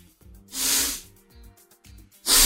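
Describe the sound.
Breath is blown out through a camouflage face mask fitted with a plain foam filter insert, making breathy hissing blasts. A longer, rising-and-falling puff comes first and a second sharp rush follows near the end, with quieter moments between.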